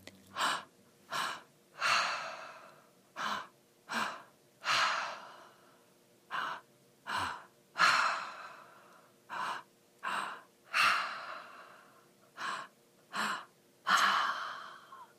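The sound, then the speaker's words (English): Breathwork breaths drawn in through the belly and pushed out through an open mouth, heard as many loud, rhythmic, breathy gasps and exhales in quick succession, with no talking. “So I'm going to do like 5 breaths to show you how breath work works.”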